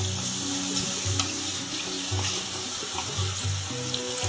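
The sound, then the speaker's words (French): Sauce made with soy protein boils in a pan, giving a continuous, fairly loud bubbling sizzle with no talking. “Voilà, c'est en train de bouillir. Dans quelques instants, ça sera prêt. Il ne faut pas trop cuire.”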